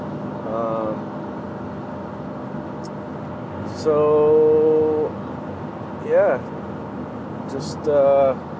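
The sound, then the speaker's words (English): A car drives on the road in the early morning, its steady low engine and road drone running throughout, with a few short tonal bursts of voice over it. “Driving here. Got an early morning drive, and so let's see, 5:30 in the morning. Been on the road for about a half hour.”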